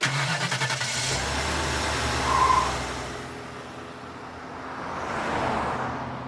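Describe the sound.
A car engine running with a steady low hum throughout, swelling slightly in loudness and fading back toward the end, with no voices.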